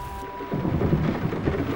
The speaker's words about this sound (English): Rain drums at the diamond-leaded panes of the small cottage window.